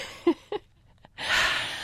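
A deep breath: a breathy rush of air lasting under a second that follows a couple of short, soft vocal sounds and a faint click, with no speech over it.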